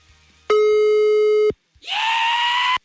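A telephone line tone sounds on an unanswered call: one steady electronic tone lasting about a second, a short silence, then a harsher, buzzier tone of similar length. No one speaks.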